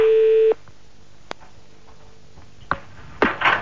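A telephone tone as a radio host calls a listener: a single steady electronic beep that cuts off after about half a second, followed by a few faint clicks and brief handling noises.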